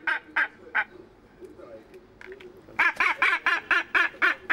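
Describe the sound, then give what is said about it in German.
A northern gannet protests loudly while a feather is taken for sex testing, giving harsh, nasal honking squawks: three calls, a quieter pause, then a rapid run of many more. “Federn noch? Ja. Lauter Protest. Dabei muss die Feder ins Labor. Zur Geschlechtsbestimmung des Basstölpels.”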